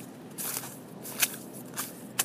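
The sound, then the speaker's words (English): Footsteps crunch faintly on a snowy, slushy running track, with a few soft, squelchy steps spaced irregularly against a quiet background. “This track is really snowy and slushy. I don't know if you can hear it.”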